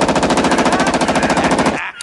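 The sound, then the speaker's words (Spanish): A Steyr assault rifle made in Austria fires a loud, continuous burst of many rapid shots in a fast, even rhythm for nearly two seconds, then stops abruptly. “Eso que ves ahí es una Steiger. Oh, es una hija de puta muy peligrosa. Escucha.”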